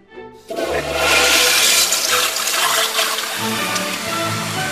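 A toilet flushes with a loud rushing gush of water that bursts in after a brief quiet start and keeps pouring steadily to the end.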